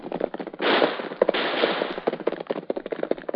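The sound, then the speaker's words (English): Rapid gunfire from a gunfight, staged as a radio drama sound effect: a dense, loud crackle of many overlapping shots with sharp individual cracks scattered through it, with no talk. “Golly, what's all the shooting for?”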